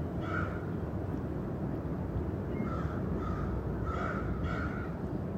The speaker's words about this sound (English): Crows have lots to say this morning.